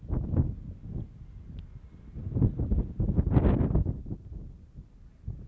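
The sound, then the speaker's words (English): Outdoor wind on a dry, clear morning buffets the microphone with low rumbling gusts that surge and ease, strongest toward the middle, with a faint rustle over the top. “That wind's going on this morning.”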